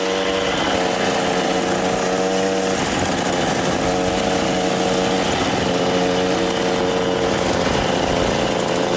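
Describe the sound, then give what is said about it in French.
A moped engine from a film runs loud and unbroken, a harsh buzzing drone with a steady, slightly wavering pitch and no talk. “La vie de Jésus, la mobylette, ça faisait partie du décor.”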